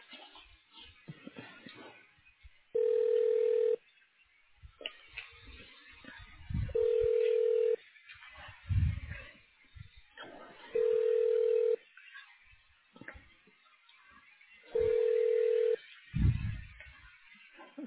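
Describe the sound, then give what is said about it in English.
Telephone tones on a narrowband phone line as a call is transferred to a voicemail line: four steady, evenly spaced beeps of about a second each, roughly every four seconds, with faint muffled noises between them. “so I'm going to transfer you back to her line where you can leave a voicemail”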